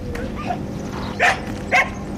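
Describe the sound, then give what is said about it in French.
A sheepdog greeting visitors at a goat farm gives two sharp barks over a steady background hum, the barks spaced about half a second apart. “Alors, on est accueilli par le chien de berger qui a très envie de faire la fête.”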